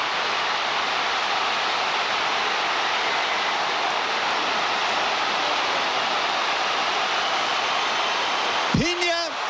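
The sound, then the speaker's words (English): A football stadium crowd roars after a stunning long-range goal: a dense, unbroken wall of cheering that holds at a steady, loud level for the full length, with no clear individual voices standing out. “You can really hear the thrill and even the shock of the crowd.”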